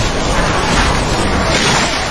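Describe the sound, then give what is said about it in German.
Stormy sea with heavy waves and wind, an audio drama effect: a loud, continuous rushing roar of surf and gusts with no break. “Doch der Wellengang war zu stark.”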